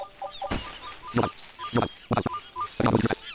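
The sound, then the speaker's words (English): Harsh screeching, chattering calls of a monkey hazard in a platform video game. Several loud, noisy bursts rise over a bed of short, high chirping game tones. “There's a monkey. Yeah! There's a hazard up there. That is a... The monkey is a hazard. You can jump over it.”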